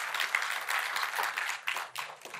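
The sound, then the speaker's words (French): A church audience applauds God, a quiet, fairly steady patter of many clapping hands. “Est-ce qu'on peut applaudir notre Dieu qui pourvoit à tous nos besoins?”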